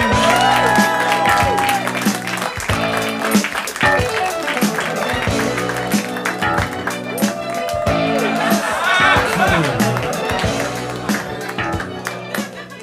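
A studio audience applauds and cheers to greet the host of a comedy show, a dense, continuous wash of clapping that holds steady from start to finish.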